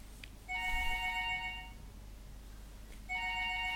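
A telephone rings with an incoming call. A bright electronic ring of layered tones sounds for a little over a second, falls silent, then starts again, over a low steady hum.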